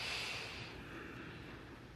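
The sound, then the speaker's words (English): A deep inhale during meditation is a soft, breathy hiss, faint and continuous, airiest at the start and easing over about two seconds, with no talking. “Again, inhaling deeply.”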